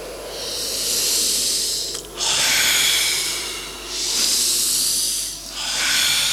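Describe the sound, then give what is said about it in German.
Heavy breathing of someone winded after climbing a high lookout tower: long, loud, hissing breaths in steady succession, with no talk. “Atmen Sie tief durch. Die Luft ist sehr dünn hier oben.”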